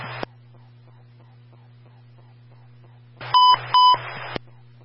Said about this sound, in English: Company standby for the emergency transmission tone test.